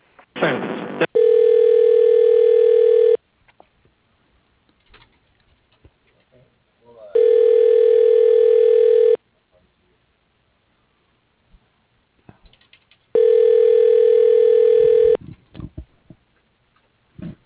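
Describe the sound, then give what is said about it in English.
Telephone ringback tone while a call is transferred through an office voice-processing system: three steady, even tones, each lasting about two seconds, separated by long silent gaps with faint clicks. “Please hold while your call is being transferred to William Fox.”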